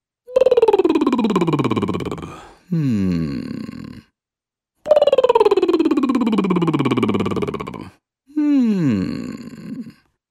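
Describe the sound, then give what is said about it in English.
A relaxing hum used as a vocal warm-down exercise. A single voice slides smoothly downward in pitch, then a shorter gliding hum follows. The pair repeats twice, steady and fairly loud. “And now, warm down on a relaxing hmm. So it sounds like this.”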